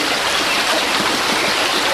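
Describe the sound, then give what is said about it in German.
River water flows where the Pader empties into the Lippe, producing a continuous, loud, even rushing wash with no breaks or voices. “6 Flüsschen, die am Stadtrand die Pader bilden. Die sich dann auch gleich in die Lippe schüttet. An der Mündung bringt die Pader 3-mal so viel Wasser wie die Lippe.”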